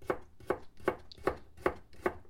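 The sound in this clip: Food is chopped during home cooking, six evenly spaced, fairly quiet chops falling at a slow, steady pace with nothing else heard around them.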